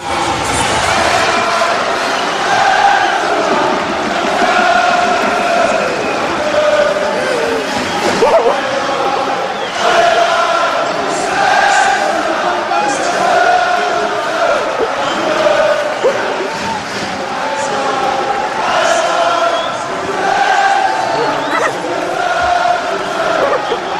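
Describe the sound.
Paris Saint-Germain supporters cheering at Raí's last match in April 1998, a continuous loud roar of crowd voices with repeated swells, shouts and chant-like surges throughout.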